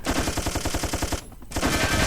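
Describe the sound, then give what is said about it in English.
Machine gun fire in a video game: a rapid, evenly spaced stream of loud shots, a brief pause, then another fast burst. “And we should mostly take the machine gun in the most time.”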